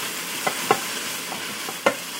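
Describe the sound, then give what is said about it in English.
Onions and leeks fry and caramelize in a pan with flour and meat bits, giving a steady soft sizzle broken by a few sharp clacks of stirring, with no talk. “Oh, you should smell these onions and leeks. Oh, they smell great. They're getting all nice and caramelized here.”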